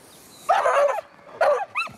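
A dog in training gives three high, tonal barking cries: one longer call, then two short ones close together, standing out over a quiet background.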